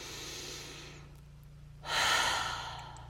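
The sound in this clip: A deep breath in through the nose during a relaxation exercise. A quieter breath and a short pause come first, then a louder airy inhale rises quickly and tapers off.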